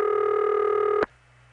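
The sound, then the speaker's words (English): A strange, steady buzzing tone sounds on a telephone trunk line while the exchange dials out. It is loud and harmonic-rich for about a second, then cuts off abruptly, leaving only a faint low hum. “That's a very unusual noise that Fulton makes while it's dialing out. It goes away as soon as it finishes, so we know it's not just a noisy trunk.”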